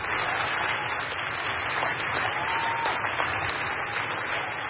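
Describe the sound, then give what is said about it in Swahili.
Applause greets Greta Thunberg as she enters the hall of the UN youth climate summit, a soft, dense wash of clapping that continues steadily throughout. “Mwanaharakati Thunberg aliwahutubia vijana kutoka kila pembe ya dunia na alipoingia kwenye ukumbi wa mkutano alipokelewa kwa shangwe.”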